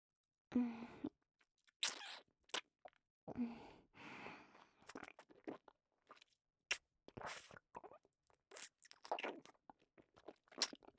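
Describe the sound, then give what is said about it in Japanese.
Someone reluctantly bites and crunches food said to taste like week-old garbage, with irregular crisp crunches and chewing scattered across quiet gaps, plus a few soft breathy sounds. “本当にこんなの食べなきゃダメっすか？もう分かったっすよ。食べますってば。”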